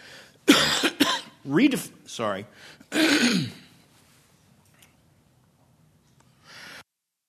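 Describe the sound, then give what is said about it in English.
A person gives a few rough, throaty coughs and throat-clearing bursts in quick succession, loud and raspy, then fades into near silence with a faint breath at the end. “She told me to be sure and mute it if I'm going to cough.”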